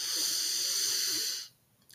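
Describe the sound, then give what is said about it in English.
A long, steady inhaled breath, taken as part of a guided breathing exercise, makes a soft airy hiss that lasts about a second and a half before cutting off into near silence. “Take a nice deep breath in with me.”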